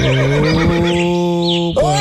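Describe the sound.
A horse neighs on a farm, its wavering high whinny rising over a steady, low, droning harmonic tone that runs throughout, with a brief dip near the end.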